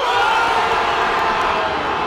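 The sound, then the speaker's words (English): Argentina football fans roar after Messi breaks his own career World Cup goals record during a win over Austria: a brief, loud, steady wash of crowd cheering. “That's the sound of Argentina fans after Messi broke his own record set less than an hour before.”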